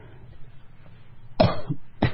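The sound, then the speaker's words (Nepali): An elderly man's harsh coughing: a couple of rough, throaty bursts with a short gap between them, loud against an otherwise quiet, low background. “अब साह्रै खोकी खोकी पो लागेको छ नाति हजुरबा”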